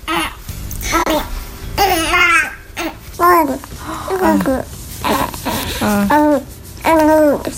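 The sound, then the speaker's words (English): A two-month-old baby coos and babbles in a series of short, high, sing-song vocal bursts separated by brief pauses, some rising and falling in pitch like attempts at talking. “now it's just so much fun because he's cooing and all kind of noise.”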